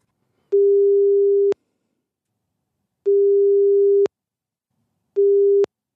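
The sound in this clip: Telephone line tone heard while calling someone: three steady, mid-pitched beeps of about a second each, separated by silent gaps, loud and alone.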